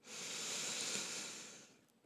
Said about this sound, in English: take a deep breath with me, breathing in through the nose